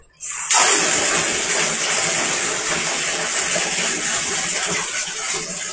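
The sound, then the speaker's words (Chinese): Water running into a child's bath to cool it down: a loud, steady gushing rush starts abruptly after a brief quiet moment and continues unbroken to the end. “来，现在不烫了，再放点，再放点水。”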